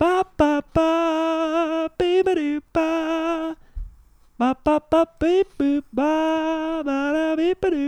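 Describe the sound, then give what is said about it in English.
A Skype incoming call ringtone plays alone: loud, bright electronic tones in short melodic bursts that repeat in a steady pattern, with one brief pause midway through. “We are getting a Skype call right now. That's what that sound is.”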